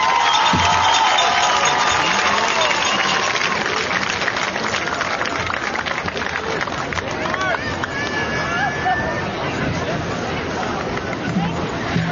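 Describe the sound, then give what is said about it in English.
Crowd applause for honored students at a school ceremony: a dense clatter of clapping mixed with crowd noise and chatter, steady throughout, with voices audible underneath. “Let's give them one more round of applause.”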